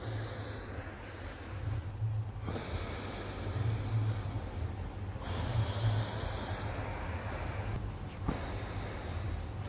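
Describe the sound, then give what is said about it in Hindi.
Slow, deep breathing through the right nostril with the left pressed closed by the thumb gives long, airy nasal hisses. A few drawn-out breaths are split by short pauses, soft and steady, with no talk. “आप left अंगूठे से left नासिका बंद करके right से गहरी सांस भर के”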